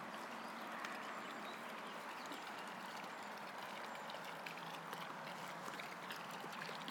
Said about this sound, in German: hinter uns hört man halt die Autobahn. die Autobahn. und dieser Brunnen hier.